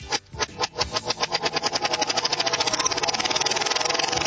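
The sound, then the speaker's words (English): A wheel is spun backwards, producing a loud pulsing whir whose separate beats start slow and quickly speed up into a rapid, even flutter that holds steady, with no voices over it. “I'm spinning it backwards. Okay? I'm going to spin the wheel backwards.”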